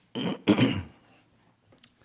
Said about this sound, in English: I think I'm going to get my throat cleared. Excuse me.